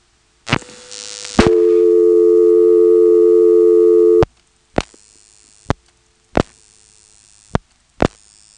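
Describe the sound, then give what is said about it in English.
A steady, low telephone dial tone from a director-type telephone exchange holds for about three seconds, then stops and gives way to five sharp clicks spaced unevenly as digits are dialed, with quiet line hiss between them. “Let's call 453. I'll show you what I mean.”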